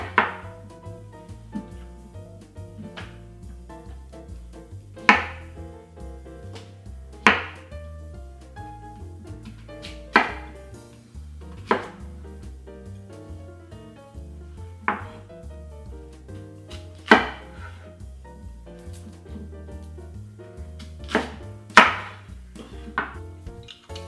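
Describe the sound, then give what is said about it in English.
Sweet potato sliced on a mandoline gives a series of sharp, crisp strokes at irregular intervals, each a brief clack over a faint low hum, with no talking. “And we're gonna prepare the sweet potato to slice on the mandolin.”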